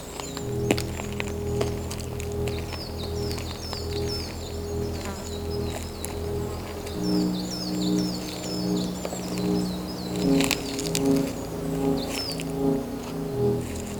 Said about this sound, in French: Et le silence, à peine voilé par les doux gazouillis des oiseaux.